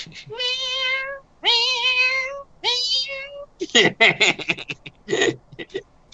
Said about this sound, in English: Please don't attack the other cats right now.